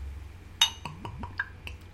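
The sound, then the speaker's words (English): A can of Nickelbrook Raspberry Uber sour beer from Burlington is cracked open with a sharp, hissy snap, followed by a few soft gurgling glugs with sliding, falling pitch as it pours. “Today we are enjoying another sour beer. It is the Raspberry Uber from Nickelbrook out of Burlington. So I'm going to crack it now. Ooh, nice sound. I hear that.”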